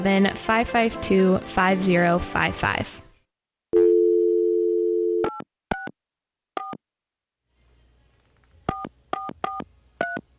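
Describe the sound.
A phone number is dialed on a telephone keypad after a voice speaks briefly. A steady dial tone sounds, then a series of short, sharp touch-tone beeps follows, a few quick ones, a pause, then several more in a fast run.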